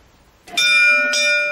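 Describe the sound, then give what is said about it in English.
A bell rung at a closed door gives a bright, loud ring that is struck again partway through and keeps sounding, with no voices. “Let's ring the bell. Probably not gonna like that.”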